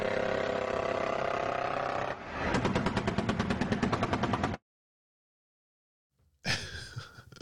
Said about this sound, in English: Oil man dropping a freaking EMP bomb on me. Kablam! Here, I got an EMP effect for you.